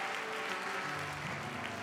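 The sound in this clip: A church audience applauds, a steady, dense wash of clapping hands that holds at an even level throughout, with no clear voices above it.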